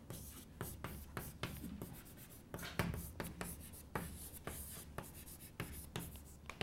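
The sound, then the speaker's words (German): Writing on a board: many quick scratchy strokes in irregular bursts, separated by short pauses, with no voices. “Schreibe ich mal an.”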